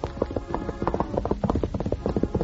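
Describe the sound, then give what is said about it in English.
Racehorse hooves clip-clop as a rider sets off, a steady run of many rhythmic hoof beats at moderate loudness, heard alone without talk. “climbed astride a racehorse furnished him by Captain Maddox and started again.”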